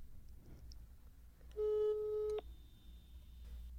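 A telephone tone sounds while someone places a call. It is a single steady beep of under a second, followed by a faint, thin high tone that holds over a low background hiss. No voices are heard.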